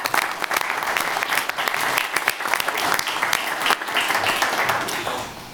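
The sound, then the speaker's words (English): Applause from the audience at a city commission meeting marking the anniversary of German unification. Loud, dense clapping is sustained for several seconds, then tapers off at the end. “So let's have a round of applause.”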